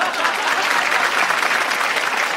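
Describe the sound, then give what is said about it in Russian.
Dense, steady applause from an audience for a performing fur seal: continuous many-handed clapping at an even, loud level for the whole clip, with no pauses or swells. “Я понял, что эти аплодисменты были именно ему.”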